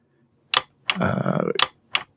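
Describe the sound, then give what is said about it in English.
Clicking on a computer, a few sharp, crisp clicks with a longer noisy burst of clatter between them, fairly quiet and with no talk. “Let me click to it here on my computer.”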